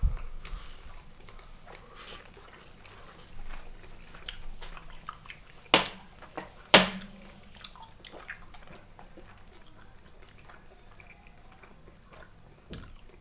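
Someone chews a small piece of salted beef brisket, making soft, wet mouth sounds and faint squishes over a low background hiss. A few sharper clicks stand out midway, and no one speaks.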